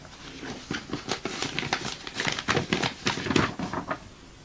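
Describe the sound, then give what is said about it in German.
Letter paper being unfolded, giving a faint, crisp rustle of many quick crackles and crinkles in irregular bursts. “Aber hier ist ein Brief für Sie. Ein Brief? Von wem?”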